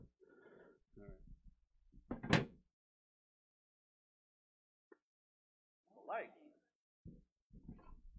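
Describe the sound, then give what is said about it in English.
A pull-out work light sliding out of a toolbox, heard as a few brief, soft scraping slides with quiet gaps between, the loudest one early in the sequence. “I love these things because it's a light, but I feel like I'm like opening up a part on a spaceship or something when I slide that out. It's so satisfying.”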